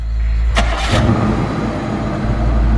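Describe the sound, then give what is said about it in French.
A car engine restarts with a brief starter crank that catches at once, then settles into a loud, low, steady idling rumble. “Le tueur redémarre sa voiture.”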